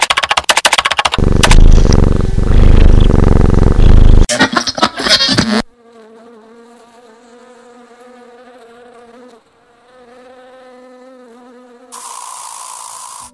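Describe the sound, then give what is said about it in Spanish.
Bees buzz in a steady, droning hum with a low, rich tone that wavers slightly, heard alone after a loud, noisy opening burst. “Debido a la contaminación y el uso de insecticidas, están desapareciendo las colonias de abejas.”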